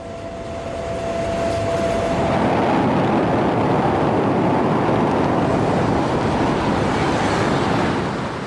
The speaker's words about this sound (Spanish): Una vez desalojado el vagón en el que se soltó el sarín, los guardas de la estación permiten salir al tren de nuevo.